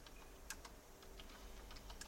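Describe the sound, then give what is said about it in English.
Keystrokes on a computer keyboard: a few quick, irregular taps, faint and crisp over a quiet background, with no voices. “Type in 1979 Cressida curb weight.”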